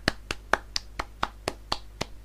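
Nine sharp hand claps at an even, steady pace, moderately loud with nothing else around them, applauding a birthday.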